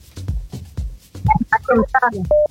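Telephone line tones as a call connects: after some low, rhythmic bursts, a quick run of warbling electronic beeps ends in one steady held tone.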